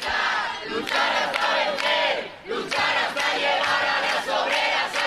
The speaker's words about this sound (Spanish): El sonido ahora mismo en las calles de Madrid.